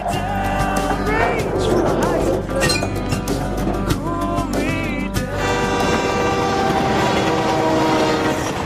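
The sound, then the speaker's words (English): A railway truck rolls along a nearby track with a steady, loud rumble, metallic clinks and sustained horn-like tones running throughout. “She notices a railway truck driving along a nearby track.”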